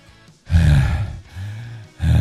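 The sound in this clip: A voice imitates heavy panting, out of breath after climbing stairs: three loud, breathy, rasping gasps separated by short pauses.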